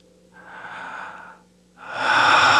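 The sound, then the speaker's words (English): A deep breath: a slow, airy inhale followed by a longer and louder rush of exhaled air. The breath is heard alone, with no talk over it. “Lean back, close your eyes, and relax. And now take a deep breath.”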